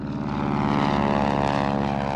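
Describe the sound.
An aircraft flies low overhead along the flight path near Naples airport, a loud, steady engine roar with a deep droning harmonic hum that holds constant throughout.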